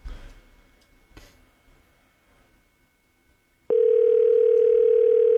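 A steady telephone tone sounds on an outgoing call, a loud continuous mid-pitched electronic note that starts abruptly after a few seconds of faint, near-silent line noise with a couple of soft clicks.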